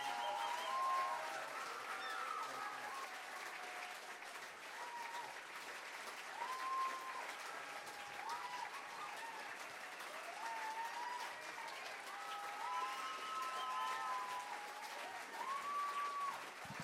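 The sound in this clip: Audience applause thanking performers at an event with workshops, dense steady clapping that runs without a break, fairly quiet.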